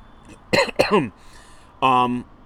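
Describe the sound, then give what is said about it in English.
Throat clearing from someone with something stuck in the throat: two rough, voiced bursts in quick succession, then, after a pause, a short steady humming vocal sound. “Sorry, I got like something stuck in my throat.”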